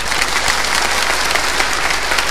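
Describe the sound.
Polite applause from an audience: a dense, even patter of many hands clapping steadily throughout, moderately loud with no voices over it.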